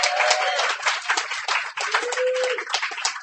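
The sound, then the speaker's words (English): Audience applause at a live reading event: many hands clapping together in a dense, steady, fairly loud wash that holds without a break throughout. “Ladies and gentlemen, give him a hand.”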